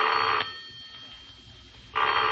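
A telephone bell rings in two loud bursts. A pause of about a second and a half separates them, filled only by a faint low rumble.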